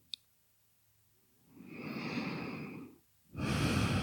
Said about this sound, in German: Nur ein paar tiefere Atemzüge in den unteren Bauch.